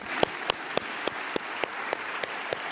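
Rhythmic, synchronized clapping from members standing to pay tribute in a council chamber: about nine sharp, evenly spaced claps in a steady beat over a faint wash of scattered applause.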